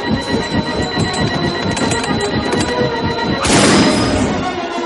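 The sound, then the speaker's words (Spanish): Helicopter falling and crashing in a 1999 science-fiction film: rapid rhythmic rotor thumping with a steady whine, then a loud broad smash bursts in near the end and fades slightly. “El helicóptero cae.”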